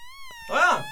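A theremin is played in a studio, giving a smooth, sustained tone that wavers slowly in pitch. A louder, broader sound swells over it in the second half.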